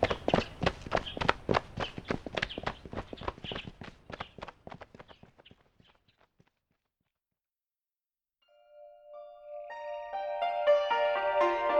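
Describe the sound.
Horses galloping on grassland: a quick, rhythmic drumming of many hoofbeats that grows steadily fainter and dies away. After a short silence, a sustained tonal sound swells in.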